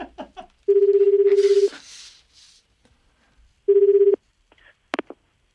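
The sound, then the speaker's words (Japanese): Ringback tone of an outgoing telephone call being placed: a steady, low, buzzing tone sounds in two bursts, a longer one and then a shorter one, separated by a quiet gap and followed by a brief click. “電話かけてみましょう”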